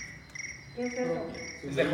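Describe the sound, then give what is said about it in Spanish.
A cricket chirps in a steady, high, thin trill that carries through, with a low voice-like sound briefly joining partway and a brief burst of noise at the end. “Es su grillo que le está diciendo qué decir y qué no.”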